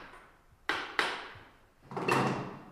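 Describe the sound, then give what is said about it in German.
Sharp knocks from a farrier opening the nail rivets on an old horseshoe inside a wood-panelled stall: two crisp strikes close together, then a pause and a louder, longer rattling impact that slowly fades. “Als erstes nimmt sie das alte Hufeisen ab. Zuerst werden die Nieten geöffnet.”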